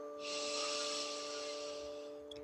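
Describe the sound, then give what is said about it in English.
One long, slow inhale through the nose during a guided meditation: a soft, airy hiss lasting about two seconds that swells and fades over faint sustained tones. “Take one deep breath in through your nose.”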